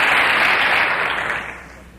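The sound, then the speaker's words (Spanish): Audience applause at an event where sponsors and supporters are being thanked: a dense, steady clatter of clapping that holds at first and then fades away over the last second. “yo te pido que les demos un aplauso a todos ellos, por favor.”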